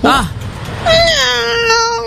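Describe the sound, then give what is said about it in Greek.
A person imitates a cat, first with a short mew and then with a longer, drawn-out meow that holds a steady, slightly falling tone. “Εγώ νομίζω κάνω πάρα πολύ καλά τη γάτα. Για πήγαινε να την κάνει.”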